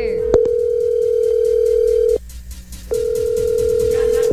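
A telephone dial tone hums steadily at a single mid pitch, opened by a sharp click, cut off for a moment partway through, then resuming at the same level.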